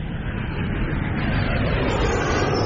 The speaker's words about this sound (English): Okay, turn the thrusters to maximum speed on a bearing Q23/J80.